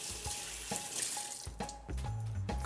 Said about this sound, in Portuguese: Só lavar as mãos aqui.